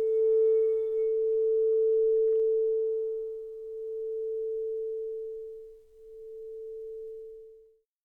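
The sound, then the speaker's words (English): A pure sustained tone from a chakra-clearing sound healing holds steady at a mid pitch for about eight seconds. Faint higher overtones fade out early, and the tone swells gently in loudness before ending. “I hope that you really enjoyed that little mini sound healing, the clearing of the chakras.”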